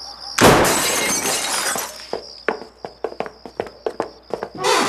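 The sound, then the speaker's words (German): A basement window's glass shatters as it is broken open with a loud crash. Many sharp, separate clicks and clinks of breaking glass follow, and another burst of noise comes at the end. “Da, das Kellerfenster ist kaputt. Ja, das sehe ich, aber da kommen wir nicht rein. Los, aufbrechen!”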